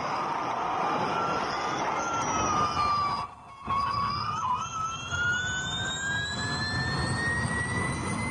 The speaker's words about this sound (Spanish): A ver, súbele un poquito al audio de los motores que ya están calentando, aunque no calientan.